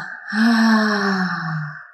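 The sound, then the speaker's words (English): Breathing in and out during a guided breathing exercise: one long, loud, voiced exhale like a sigh, its tone slowly sinking in pitch as it fades out. “Breathe in with me. Think, Breathe out, Breathe in, And out,”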